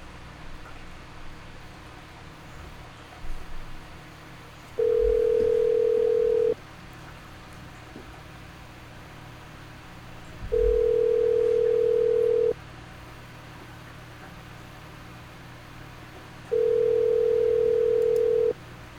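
A telephone ringing tone on a dialed call repeats three times, each a steady, mid-pitched, unbroken hum of about two seconds, separated by long pauses over faint background hiss.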